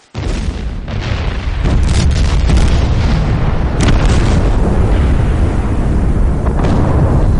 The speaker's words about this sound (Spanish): Las baterías italianas capaces aún de combatir, y los pocos cañones que les quedaban a los ingleses abrieron fuego.